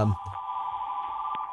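A mobile phone rings with a steady, buzzy electronic tone like an old fax machine, held unbroken and fairly loud for the whole stretch.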